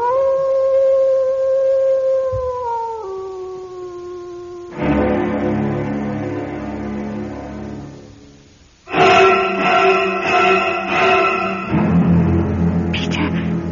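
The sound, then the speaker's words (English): A dog howls outside a house in one long, steady harmonic wail that drops to a lower pitch partway through, then gives way to loud, dense, harsh sound. “Then why is it howling? It's coming closer, Peter. It sounds like it's just outside the house.”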